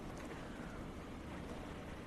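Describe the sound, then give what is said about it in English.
Strong wind blows outdoors as a steady, rushing roar that buffets the microphone. The sound is continuous and fairly soft. “Wow, it's windy as a bitch, too.”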